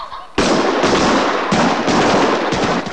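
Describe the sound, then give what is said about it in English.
Shotgun fire from a shooting party in a forest clearing, a loud barrage of many rapid, overlapping blasts fired into the air to bring down flushed birds, one sharp report following another. “lets off a barrage of almost random shotgun fire into the air.”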